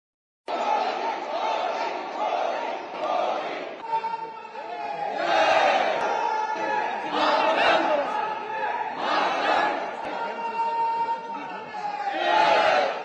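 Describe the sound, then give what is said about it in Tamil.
Indian diaspora crowd cheering and chanting to welcome Prime Minister Narendra Modi on his arrival in China for the Shanghai Cooperation summit; a loud, continuous din of many voices that swells in repeated surges throughout. “இந்த மாநாட்டில் பங்கேற்பதற்காக பிரதமர் திரு நரேந்திர மோடி சீனா சென்றடைந்தார். அவருக்கு இந்திய வம்சாவளியினர் உற்சாக வரவேற்பு அளித்தனர்.”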